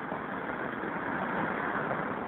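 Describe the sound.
Street traffic on Northern Boulevard at 41st Street, heard right at a curbside payphone: a steady, continuous wash of engine and road noise with no distinct single vehicles passing.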